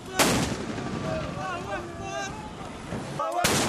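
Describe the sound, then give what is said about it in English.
Mortar and tank fire booms during fighting around the Libyan city of Sirte: a sharp blast opens, a voice talks through the middle, and a second loud blast lands at the end. “Fighters with the National Transitional Council are firing mortars and using tanks to try and fight their way into Sirte”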